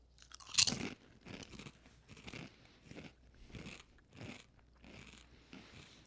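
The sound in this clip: Crunchy biting and chewing of sweet potato chips from a bag, many of them crushed: one loud first crack followed by many sharp, brittle crunches in a fairly regular rhythm, growing somewhat softer as chewing continues.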